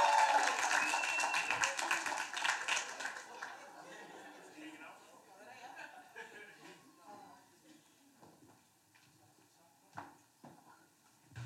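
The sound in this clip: An audience applauds and cheers to welcome two guests. The clapping is dense and loud at first, then thins out and fades, with talk continuing underneath.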